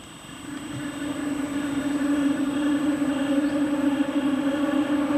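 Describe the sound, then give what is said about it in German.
A train rolling on the rails between Bayerisch Gmain and Berchtesgaden, its steady whirring hum swelling over the first two seconds and then holding loud and even, with a thin high tone above. “Schon lange, bevor man den Zug sieht, baut sich ein schwirrendes Geräusch auf, das immer lauter wird, bis der Zug vorbeifährt.”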